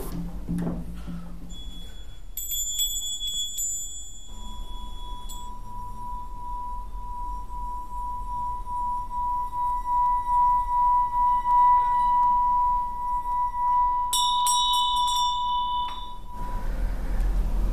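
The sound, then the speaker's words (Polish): Tibetan bells rubbed like a wet finger on a crystal glass give a steady, pure ringing tone that sustains for about twelve seconds, with brighter overtones joining near the start and the end, and no voices. “Grałem na dzwonkach tybetańskich i robiłem to w taki sposób podobny do tego, jak niektórzy z nas bawią się kieliszkami z dobrego kryształowego szkła, pocierają się wilgotnym palcem.”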